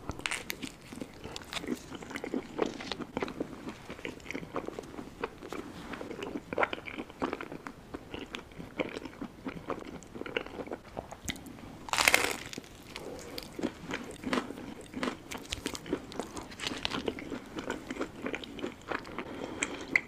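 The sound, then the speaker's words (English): A person eats with crisp biting and crunching, then moist chewing. Many irregular crunches of varying loudness run steadily throughout with no talk. “And I really don't want to hear other people eat. To me, it sounds kind of gross.”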